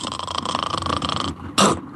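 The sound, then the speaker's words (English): A voice imitates a person snoring with a partial apnea: a fast, rattling, throaty snore runs for over a second, then stops and is broken by a sudden loud snort. “sometimes it's crazy how loud some people can snore. Mm. It's, you know, and I think they'll sometimes get a snore with a half apnea. You'll hear like a,”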